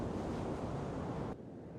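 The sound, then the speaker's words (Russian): Sea water rippling with small waves under a cloudy sky makes a soft, steady, washing hiss that drops in level abruptly near the end. “На серо-голубом небе ватные клочки серых облаков, море внизу покрыто рябью.”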